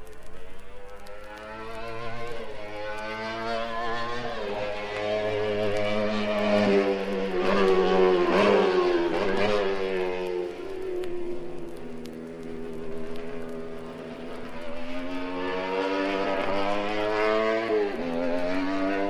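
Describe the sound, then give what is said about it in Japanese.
A CR93 race car's engine roars as it drives through a hairpin on a circuit, its droning note dipping and rising again several times, steady and fairly loud throughout with no voices. “第1コーナーを抜けた CR93 は左から右へ 27R のヘアピンに向かいます。”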